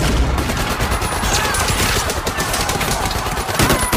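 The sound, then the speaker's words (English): Machine gun fire from a violent film scene, several guns opening fire at once: dense, loud, rapid bursts of shots run without a break through the whole clip, with no voices. “the Basterds come through Hitler's box and open fire with their machine guns.”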